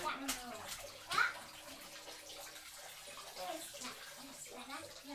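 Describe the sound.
Water is squeezed onto a child in a bathtub: faint splashing and trickling with light sloshes, while voices talk over it.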